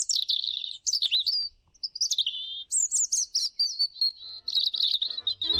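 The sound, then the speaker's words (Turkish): European robin singing a series of high, rapid, varied warbling phrases broken by short pauses, the song fairly faint and heard alone. “Doğa takvimini bugün Kızılgerdan'ın şarkısıyla bitirelim.”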